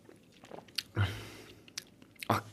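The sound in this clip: Biting and chewing food while tasting it, with a few sharp crunchy bites standing out from softer, moist chewing sounds.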